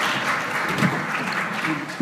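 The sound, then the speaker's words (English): Applause from an audience honoring panelists at a panel event, a steady, dense patter of many hands that holds at an even level for about two seconds. “Please join me in giving them one more round of applause for all of the iki that they've brought with them”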